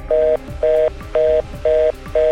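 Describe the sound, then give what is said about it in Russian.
Telephone dialing tones from a call placed to the city hall in Krasnoyarsk: five evenly spaced, steady two-tone beeps of equal length, clear and fairly loud, with short gaps of faint hum between them. “Мы сегодня тоже пробовали позвонить в мэрию, но миссия оказалась невыполнимой.”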